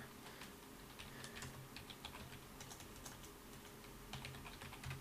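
Typing on a computer keyboard, with quick, irregular key clicks tapping on steadily and faintly, without talk.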